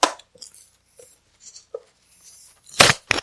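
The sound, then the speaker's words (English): A three-pack package tearing open as cardboard pulls away from plastic: scattered faint crinkles and scrapes, then two loud, rough ripping bursts close together near the end. “Listen to that 3-pack ripping open.”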